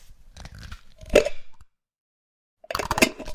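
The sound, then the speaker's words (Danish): A glass jam jar is opened with a gritty twisting crunch that ends in one sharp pop. After a short silence, a second burst of crunchy clicking and scraping follows. “Det her er lyden af et syltetøjsglas, der bliver åbnet.”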